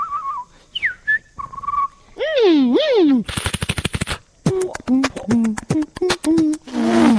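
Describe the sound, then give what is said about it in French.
A human voice imitates sounds with the mouth: sliding whistles and warbling tones, a rapid rattling burst like machine-gun fire, then a run of quick clicks and short rising whistle-like calls. “je suis un imitateur de bruit avec la bouche et je raconte des histoires. Donc, je fais plein de bruits comme ça.”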